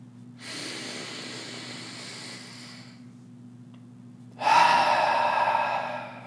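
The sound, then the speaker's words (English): A deep breath drawn down into the belly, then let out through the nose: a long, soft inhale, a short pause, then a louder, fuller exhale, over a faint, steady low hum. “Now take the deepest breath you've taken all day, inhaling all the way down into the belly. And exhaling through the nose.”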